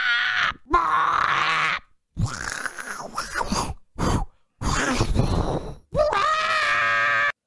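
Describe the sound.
A single voice imitates Skyrim video game sounds with loud groans, grunts and strained cries. They come in several bursts separated by brief pauses.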